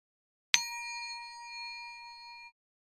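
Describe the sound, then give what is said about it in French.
A small bell, used as a page-turn cue in a read-aloud children's story, is struck once. Its bright, clear ding rings on for about two seconds, then stops. “Quand tu entendras le son de la clochette qui sonne, tourne la page toi aussi.”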